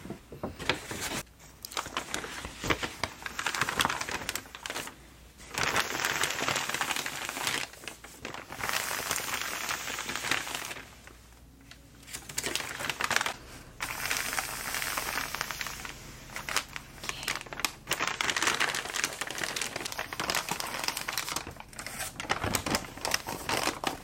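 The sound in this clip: Paper packaging crinkles and rustles as items go into a bag during a store checkout roleplay. Long stretches of soft, dense crackling are broken by brief pauses.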